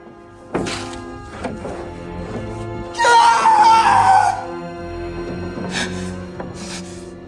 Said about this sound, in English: Ian turns to look at Wendy, then screams.